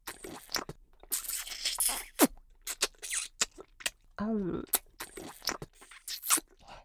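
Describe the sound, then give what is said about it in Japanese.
Someone crunches and chews food. Crisp crunching bites and chewing noises repeat irregularly throughout, with a brief vocal sound in the middle. “美味しそうに食べてよ。よく噛んで。”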